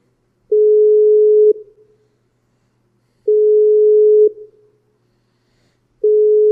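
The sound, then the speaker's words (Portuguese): Unanswered outgoing phone call ringback: loud, steady low-pitched tones about a second long, repeating every few seconds with silence between. Two full tones are heard, and a third is cut off at the end, with no voices. “vou tentando ligar”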